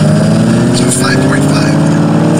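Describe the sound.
Synthetic engine sound from a Mustang Mach-E electric SUV revving: a loud, steady droning hum of layered tones that holds continuously throughout, with faint higher whines drifting above it.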